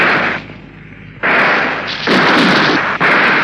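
Gunfire aimed at a helmeted, armored man coming down steps comes as a few loud, harsh bursts of noise, each lasting a fraction of a second or more, separated by short quieter gaps.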